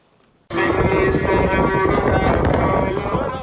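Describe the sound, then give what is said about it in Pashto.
Strong wind whips up dust along the route of a peace march in Helmand. After a quiet opening it bursts in suddenly as a loud, continuous roar and rushing buffet that holds steady to the end. “دوړې او سخت باد چلیږي”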